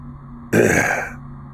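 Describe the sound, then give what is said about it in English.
A man clears his throat once, a short, gruff, rasping rumble that rises abruptly and fades after about half a second against a faint low hum. “He clears his throat and seems to think about where to begin.”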